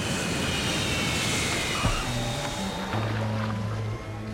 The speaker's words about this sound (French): Mesdames, messieurs, nous allons atterrir dans quelques minutes.